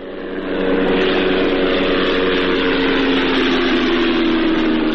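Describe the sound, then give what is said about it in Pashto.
An unmanned drone flying in the sky over Ghazni province, Afghanistan: a loud, steady engine drone with a buzzing hum that fades in briefly, then holds constant for about five seconds, with no talking. “دا د هغه بې پیلوټه الوتکې غږ دی چې پر افغانستان د طالبانو له حاکمیت څخه وروسته هم د غزنی ولایت تر څنګ د پکتیا، پکتیکا او ځینو نورو ولایتونو په هوا کې ګرځي.”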